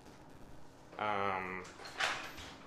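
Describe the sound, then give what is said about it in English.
A garage door opening, with a steady droning whine carrying a stack of even tones, then a brief louder hissing surge. The background is otherwise quiet. “that garage door opening.”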